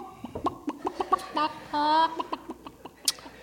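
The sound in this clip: A human voice imitates geese with many short, clucking honks in an uneven rhythm and a couple of longer held calls.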